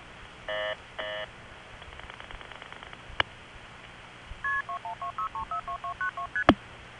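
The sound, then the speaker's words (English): A GTE Automatic Electric senderized step-by-step tandem switch in Olney, Illinois sends multifrequency tones. Two short tone bursts come first, then a rapid, even string of brief two-tone beeps stepping between pitches, ending with a sharp tick over low line hiss. “the senderized step tandems made by GTE Automatic Electric. What follows is the sound of one of those in Olney, Illinois, MFing out, and notice the tick at the end.”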